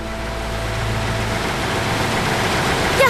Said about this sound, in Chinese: 董立生舍不得，领着队里的姐妹开着两台机车，挂着收割机就过去了